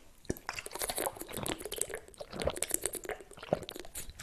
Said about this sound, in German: Ich trinke erstmal einen Schluck. Ich hoffe, ihr auch.